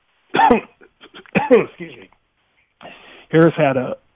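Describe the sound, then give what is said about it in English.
Throat clearing: a few rough, voiced, guttural bursts with short pauses between them, heard alone without talk. “Sorry, I got something caught in my throat.”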